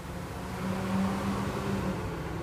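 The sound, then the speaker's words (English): A truck driving down a road gives a steady, moderately loud engine rumble with a low hum that holds through the whole stretch, and no one speaks. “I swear, one more fucking truck comes down this road.”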